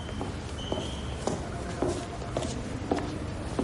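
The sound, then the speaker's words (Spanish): Footsteps of a man walking along a hospital corridor, a steady, evenly spaced tread of soft steps under a constant background hiss. “Alberto camina por el pasillo de un hospital.”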